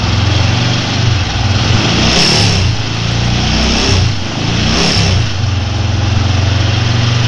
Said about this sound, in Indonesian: Waduh, macet lagi. Gimana nih?